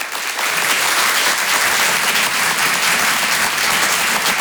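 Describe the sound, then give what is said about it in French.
Audience applause greets a comedian coming on stage at a comedy club: dense, steady clapping that holds at a loud, even level from start to finish, with no speech over it. “Faites du bruit s'il vous plaît pour Avril sur Rire et Chanson.”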